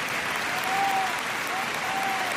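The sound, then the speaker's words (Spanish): Spanish basketball fans give a sustained ovation to Ukraine's national team at a game in Córdoba. The applause is dense and even, holding at a steady level throughout. “Y este es el aplauso de todos los aficionados españoles a la selección de Ucrania.”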